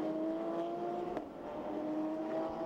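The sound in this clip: Race cars at the 2020 Petit Le Mans endurance sports car race stream down a hill on the circuit, a continuous loud engine drone with a steady tonal whine and no breaks.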